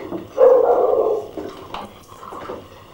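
A dog barks: one loud, rough burst comes first, followed by a few quieter, shorter barks.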